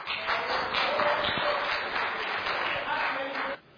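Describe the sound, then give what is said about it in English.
Audience applause at a religious lecture: dense, steady clapping with crowd voices mixed in, holding at a constant level before cutting off abruptly near the end. “thank you so much for being such an amazing audience with all the takbirs and all the applauses”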